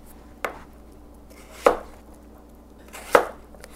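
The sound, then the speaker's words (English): Knife chopping through napa cabbage for kimchi: three sharp, separate cutting strokes spaced about a second or more apart, each a crisp thud with a brief crunch, with no talking. “Okay, so now I'm going to slice them up.”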